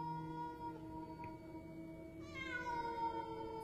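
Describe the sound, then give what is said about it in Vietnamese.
Feral cats yowl on a sloping stilt-house roof in long, tonal, drawn-out cries. Partway through, a higher yowl enters and slides downward over the lower ones. The sound stays fairly faint throughout. “Tôi chợt dùng mình khi nghe tiếng mèo hoang gọi bầy. Sau đó, không phải là một, mà là phải đến 4-5 con.”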